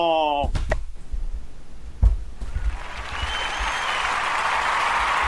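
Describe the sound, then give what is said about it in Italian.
Applause from a crowd, a dense steady wash of clapping that builds after a brief tonal sound and a couple of dull thumps, then holds at an even level to the end. “Ci sono gli applausi.”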